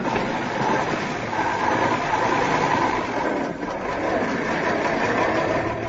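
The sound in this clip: A car engine runs as the car pulls away from a starting line, making a dense, even drone that holds steady with no clear change in pitch.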